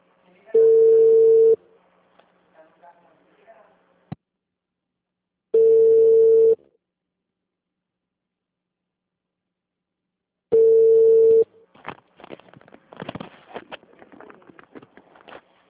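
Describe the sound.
Ringback tone on a telephone call: three evenly spaced, steady, mid-pitched beeps, each about a second long with long silent gaps between them. Faint irregular crackling noise follows the last beep.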